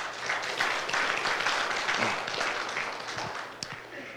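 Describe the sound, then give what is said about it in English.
Audience applause welcoming a speaker to the stage, with dense, steady clapping from many hands that holds throughout and eases slightly toward the end. “would you just put your hands together and welcome Stan?”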